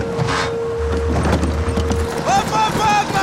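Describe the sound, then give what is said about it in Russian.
Clip-clop of horse hooves as a soldier rides a horse to catch up with a car, with steady rhythmic hoofbeats under voices and other busy sound. “Солдат верхом на лошади нагоняет машину.”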